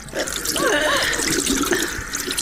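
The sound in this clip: Water poured over someone's hands for washing makes a steady, continuous splashing stream that runs loud and unbroken through the whole clip.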